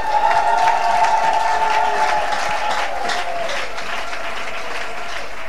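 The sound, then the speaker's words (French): A church audience applauds and cheers to acclaim God, a loud, dense wash of sustained clapping with raised voices that eases slightly partway through. “Ah, est-ce que tu peux acclamer Dieu avec moi?”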